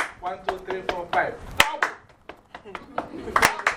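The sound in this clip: Sharp hand claps punctuate a rhythmic spoken count, with a voice chanting between them and a couple of louder claps standing out at the ends of phrases.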